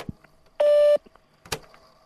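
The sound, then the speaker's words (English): A single short, steady voicemail beep rings out clearly, lasting under half a second. A few faint clicks and breathy noises surround it. “Don't leave your name or number, just leave me a secret. You'll have 3 minutes at the tone.”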